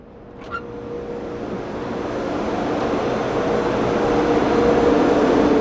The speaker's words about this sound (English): Over on the left end is the gas turbine. The white enclosure is the generator, and then the gas turbine, and the hot exhaust gas comes off sideways into this big gray